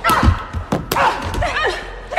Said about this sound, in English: Molly punches Christina down and kicks her.